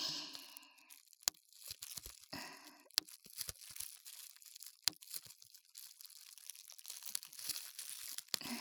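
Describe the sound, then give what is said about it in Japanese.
Bubble wrap packing material is popped in a quiet series of many sharp, irregularly spaced snaps, with soft crinkling of the plastic between the louder pops. “いわゆるプチプチ。梱包材っていうの？これで時間潰せちゃうわよね。”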